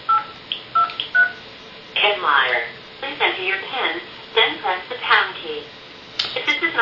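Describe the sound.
Telephone keypad tones entering an extension: a few short, bright beeps in quick succession, followed by a voice speaking.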